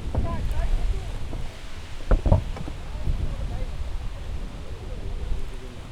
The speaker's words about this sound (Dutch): Het waait enorm hier.